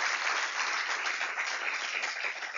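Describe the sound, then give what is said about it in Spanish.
A church audience applauds during a worship service, giving a soft, continuous patter of many hands that stays even and muted throughout without separate standout claps. “Le doy un aplauso al Señor en esta hora.”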